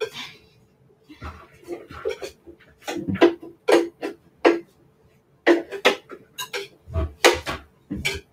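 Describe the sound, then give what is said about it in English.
Blended pumpkin blondie batter is scraped out into a big mixing bowl, with irregular bursts of clinks, taps and scrapes of a utensil against the containers and quiet gaps between them. “So now that this is all blended up, I'm just gonna put this in a big mixing bowl. Let's see if I can get it all out of here.”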